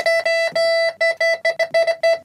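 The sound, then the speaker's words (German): Electronic beeping marks the spot where a gold chain is hidden up in the ceiling. A steady mid-pitched tone sounds in long beeps that grow shorter and quicker, forming a rapid pulsing pattern. “Da piept's, da muss sie sein, aber wie soll ich da rankommen?”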